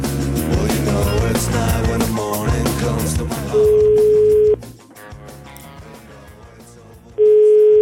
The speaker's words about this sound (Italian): Chiamiamolo questo imbecille, chiamiamolo.